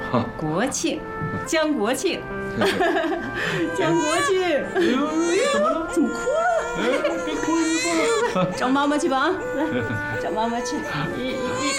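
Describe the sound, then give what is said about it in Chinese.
A newborn baby cries in wavering, rising and falling wails that go on throughout, while adults talk over the crying. “哎呦， 怎么哭了？ 别哭，别哭， 找妈妈去吧啊！”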